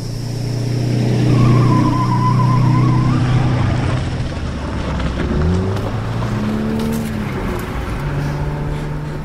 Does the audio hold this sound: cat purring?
no

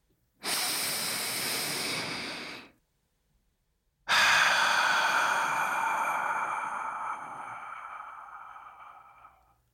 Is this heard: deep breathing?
yes

